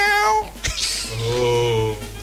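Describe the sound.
A cat meows in a few drawn-out, wavering cries, fairly loud and alone, with no other sounds clearly present.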